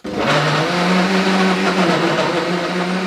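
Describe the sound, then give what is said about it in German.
A blender purées peaches in a loud, steady whirring drone with a low motor hum. It starts abruptly and runs without a break for about three seconds. “jetzt pürieren wir die Pfirsiche. Genau, die werden jetzt wieder püriert.”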